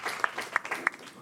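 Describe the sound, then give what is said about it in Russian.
A few sharp, evenly spaced claps ring out at a festive unity day gathering, with a soft wash of voices and crowd noise running beneath them. “Аплодируем.”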